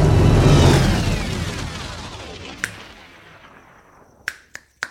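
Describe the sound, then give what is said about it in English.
Finger snaps meant to start a fire in freezing weather: a loud rumbling burst fades slowly, then four crisp, isolated snaps come, one alone and then a quick group of three. “When I click my fingers every other time, the fire starts itself, but not today.”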